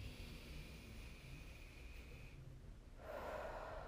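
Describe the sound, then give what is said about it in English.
A deep breath drawn in and then blown out during a guided breathing exercise: a long, soft, airy inhale, then a brief pause and a stronger, rushing exhale near the end, all faint and with no talking. “All right, now take a deep breath in.”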